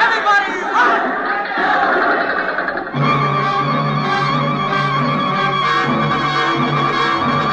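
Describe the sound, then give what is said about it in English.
A crowd of villagers massing to attack, heard as dense, loud murmuring and raised voices that continue throughout, the texture shifting partway through without a break. “Do you hear them? The villagers are going to attack.”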